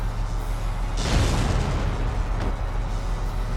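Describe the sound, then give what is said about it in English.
A mortar shell fired and exploding in a video game: a deep, loud boom bursts in and rumbles away over a couple of seconds, followed by a fainter, shorter thud. “I'm going to shoot the mortar at both of these scouts. Now!”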